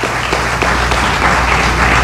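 Audience applause at a journalism awards ceremony as a radio journalist is honoured, a loud dense wash of clapping that runs without pause beneath a low steady hum.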